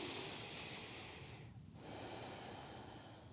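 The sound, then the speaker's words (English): Deep breath taken during a yin yoga session: a long airy rush of breath, a brief quiet gap, then another long breathy stream, soft and steady with no talking. “Okay, so you're going to take a deep breath.”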